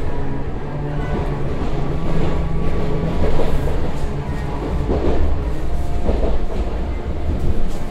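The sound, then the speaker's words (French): Steady interior rumble of an RER A suburban train running from La Défense toward Saint-Germain-en-Laye: a loud, continuous low roar with faint rattling throughout. “On est donc avec vous à La Défense et on va vous accompagner sur ce trajet jusqu'au terminus du RER A à Saint-Germain-en-Laye où vous enseignez donc à Sciences Po.”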